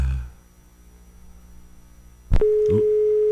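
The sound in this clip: A telephone line signals a failed call: a low hum, then a sharp click and a steady, mid-pitched tone that holds to the end, broken by one brief second click.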